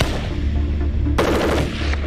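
A QJB-201 light machine gun fires in a dense, continuous burst of rapid shots, loud and unbroken, turning harsher and brighter partway through.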